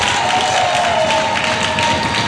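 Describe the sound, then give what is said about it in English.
An audience gives a standing ovation at a church service, clapping loudly in a dense, steady wash that continues through the whole moment. “Get up on your feet, clap to Jesus, then sit down. Give Jesus a standing ovation.”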